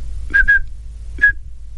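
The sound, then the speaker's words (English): A person whistles short, high pure-tone pulses that imitate the phone-network control tone, to dial New York's area code 212. Two quick pulses come close together, then a pause, then a single pulse. “So as an example, if you wanted to dial a call in New York, which let's say starts with area code 212, you would send pulses of 2600 hertz that would sound something like this.”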